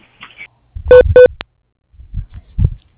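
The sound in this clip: Two short, bright telephone beeps in quick succession mark a call transfer, followed by a sharp click. Quiet murmurs of voice come before and after.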